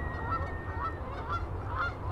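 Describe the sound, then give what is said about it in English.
Geese honking as they scramble into the air when herding dogs reach them: many overlapping nasal honks, fairly faint, over a steady low rumble of background noise. “Just as the dogs reach the geese, the birds scramble into the air.”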